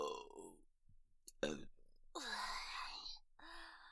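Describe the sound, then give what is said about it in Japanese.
A quiet, drawn-out burp from a person, voiced and croaking, preceded by a few brief breathy and clicking mouth sounds. “ザーメン濃すぎてゲップ出ちゃった。恥ずかしい。”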